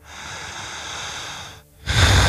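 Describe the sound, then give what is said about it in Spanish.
Vigorous, exaggerated breathing. A long, steady, airy breath is followed after a short pause by a louder, rougher, forceful breath. “Lento, potente. Una respiración exagerada, poderosa, portentosa. Una respiración vigorosa.”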